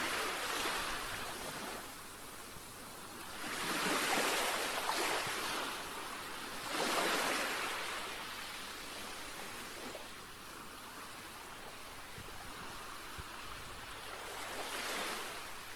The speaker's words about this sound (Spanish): Otros, sin dudarlo, te dirán que su sonido favorito es el de las olas del mar.